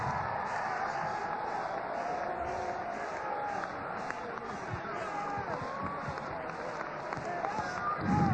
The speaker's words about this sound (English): Clap your hands some more and give Him praise.